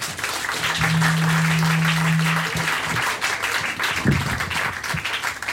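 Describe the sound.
Audience applause welcoming a speaker to the stage, a steady patter of many hands clapping that holds at an even level throughout.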